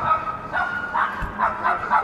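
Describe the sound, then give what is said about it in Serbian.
A dog barking in a quick series of short, yipping barks over constant rushing wind noise. “Sad imamo i, i psa koje laje i vatar.”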